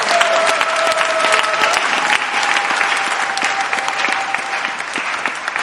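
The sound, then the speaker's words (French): A church audience applauds as a brother and sister return to their places: steady, sustained clapping from many hands that holds at an even level throughout. “Que l'église acclame pendant que le frère et sœur retournent.”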